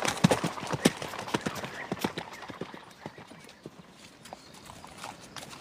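Horses being ridden, hooves clip-clopping in many quick, irregular strikes that are loud at first and grow gradually softer.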